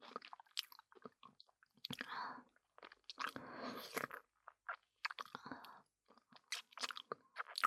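Crunchy biting and chewing of an apple, with several loud, crisp crunch bursts separated by quieter, irregular chewing sounds and short pauses, without talk.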